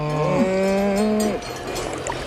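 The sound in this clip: A cow moos in an Alpine setting: one long, low lowing call of about a second that steps up in pitch partway through, then fades into a quieter rustling background.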